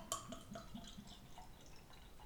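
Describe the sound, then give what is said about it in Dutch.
Five-year-old cellar-aged dark beer is poured into small glasses: faint liquid trickling and a series of soft drips and splashes, quiet throughout with no voices. “Misschien zit er wel amper koolzuur op. Nou, je sist wel.”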